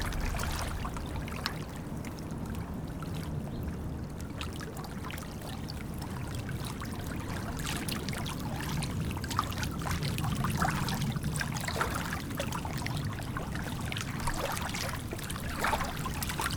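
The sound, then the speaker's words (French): Flowing water makes a continuous trickling, pouring wash at a moderate, even level, with small splashy accents scattered through it and no talking. “Si tu te concentres là, tu as le son de l'eau.”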